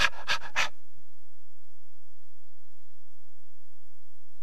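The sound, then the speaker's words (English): A person imitates a dog that has come back inside from the backyard panting. Three quick, breathy huffs come in a row, followed by silence. “It'll come back in and it'll be panting.”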